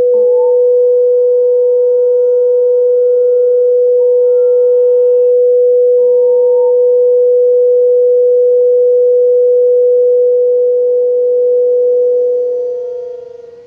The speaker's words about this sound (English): Again, that's 492.8 hertz.